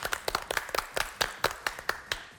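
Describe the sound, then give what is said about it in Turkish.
Applause from a TV quiz competition audience: many uneven, sharp hand claps in a loose rhythm, fairly faint, with no voices. “Tebrik ediyoruz efendim, sizi alkışlıyoruz.”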